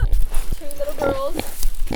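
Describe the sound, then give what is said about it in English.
Two young piglets oink and squeal on a farm, giving a few grunting sounds and a short run of high, wavering squeals over constant background noise. “and some rather vocal piglets”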